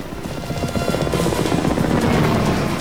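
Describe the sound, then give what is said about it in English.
Helicopter rotors and engines roar steadily as two helicopters swerve and swoop in pursuit above dusty scrubland, a loud, continuous chopping drone with no voices. “The two choppers swerve and swoop above dusty scrubland, dotted with green shrubs.”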